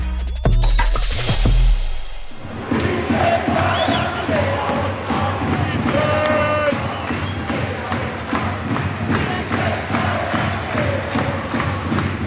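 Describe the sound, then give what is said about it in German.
Crowd noise at a basketball game in an arena during an overtime victory: a dense, loud roar of cheering voices with regular thumping beats running through it, following a short loud opening sound. “so klang das am Sonntag im Telekom Dom beim 88-83 Sieg der Baskets nach Verlängerung gegen Bayern München”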